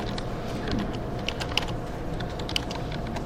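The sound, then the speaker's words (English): Computer keyboard keys are tapped while typing a for loop of code, giving light, irregular clicks with a few sharper taps over a steady background hum. No one speaks. “So for example, if I wanted to look at a for loop, I could just type the for loop in here.”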